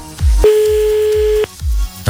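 A single steady telephone line tone, about a second long, sounds while a contest winner is being called, over a low, regularly thumping beat.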